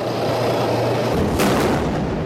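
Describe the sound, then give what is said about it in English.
Gunfire and heavy booming blasts from an attack on a military convoy in Aleppo, with a tank burning; a loud, dense, continuous roar of shots and explosions with a sharper burst partway through. “This dramatic footage from Aleppo shows an attack on a convoy with a soldier leaping out of a burning tank.”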